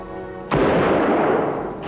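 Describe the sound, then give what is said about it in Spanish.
A SWAT officer fires a single gunshot at a leg: one loud, sharp blast that leaves a long, noisy roar. A low, steady tone plays just before it. “El tiro impacta en el muslo derecho tiñendo el pantalón de rojo.”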